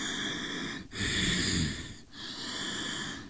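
Nasal, snore-like rumbling from the upper palate vibrating during breathing, a steady buzzing drone sustained over about three long breaths with brief breaks between them.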